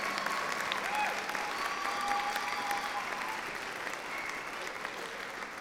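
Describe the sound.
Loud, sustained applause from an audience welcoming the musical director of Dungarvan Brass Band, a steady wash of clapping that holds at an even level throughout.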